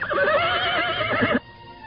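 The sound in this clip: A horse neighs in one loud, wavering whinny lasting over a second, breaking off into a quieter, fading tail.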